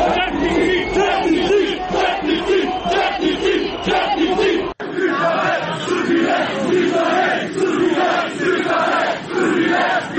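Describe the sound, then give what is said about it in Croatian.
Protesters outside the parliament in Montenegro cheer and chant for opposition MPs. A loud, massed roar of voices pulses in a rhythmic chant and is briefly cut off near the middle, then resumes at full strength. “Dok su ovacijama pozdravili poslanike opozicije koji su izašli i aplauzom pozdravili okupljene.”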